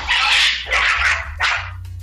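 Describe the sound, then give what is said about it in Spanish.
Dogs bark in three harsh, loud bursts, each lasting a fraction of a second, as they are being chased away; a low, steady hum sits underneath. “Que hay unos perros y aquí los estamos corriendo.”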